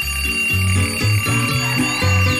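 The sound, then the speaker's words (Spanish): An alarm clock rings at an early-morning wake-up: a steady, repeating pattern of low electronic tones that pulses about twice a second through the whole clip, loud and with no voices. “No apague el despertador.”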